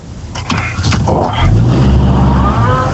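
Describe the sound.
Car driving and turning, with a low engine hum that deepens partway through under voices talking.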